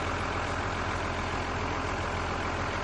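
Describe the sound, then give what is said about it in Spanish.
A tractor engine drones as it drives through a field, a loud, unbroken rumble that stays steady in pitch and volume throughout. “Circulan por el campo en el tractor.”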